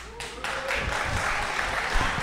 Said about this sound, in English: They just cheered your name.